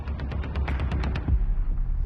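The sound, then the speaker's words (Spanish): Rapid assault rifle gunfire during fighting on a bridge: many sharp cracks in quick succession over the first second, then a heavier low thud over a continuous rumbling background. “No dejan de disparar. Son fusiles de asalto.”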